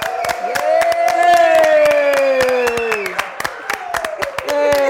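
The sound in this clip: Applause and cheering from a studio audience welcoming a guest onto a show, with sharp claps running throughout and a sustained voiced whoop that gradually lowers in pitch above the crowd.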